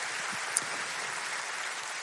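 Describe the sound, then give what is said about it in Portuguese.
A church audience claps together in a faint, steady patter that stays even from start to finish, with no voices standing out. “Uma salva de palmas a Jesus pela sua vida.”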